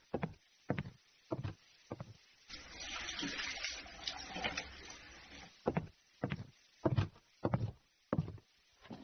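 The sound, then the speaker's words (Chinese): Hand washing under a running tap: a steady rush of water lasts about three seconds mid-clip, set between several sharp, spaced knocks and clacks before and after it, with no voices. “快去洗手去。”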